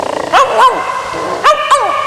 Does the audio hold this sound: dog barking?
yes

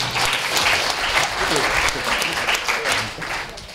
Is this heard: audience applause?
yes

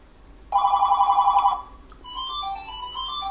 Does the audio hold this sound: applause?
no

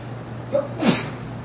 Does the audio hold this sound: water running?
no

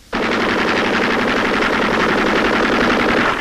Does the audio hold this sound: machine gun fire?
yes

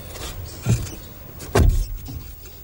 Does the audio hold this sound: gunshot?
no

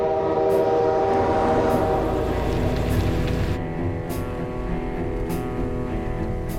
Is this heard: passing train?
yes

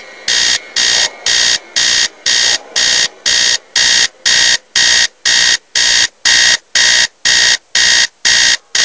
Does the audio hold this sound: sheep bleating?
no

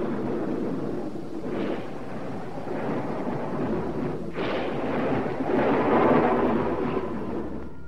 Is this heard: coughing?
no

